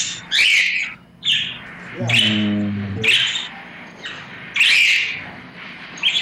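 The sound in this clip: Loud, harsh squawks from a pet bird ring out in several sharp bursts, separated by brief gaps of quieter sound.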